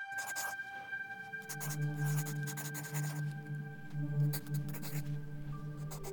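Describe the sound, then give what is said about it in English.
A pen scratches across the pages of a journal in several short, soft bursts of rasping strokes, faint over a steady low electrical hum. “She reached into her bag, grabbed her journal, and began to write.”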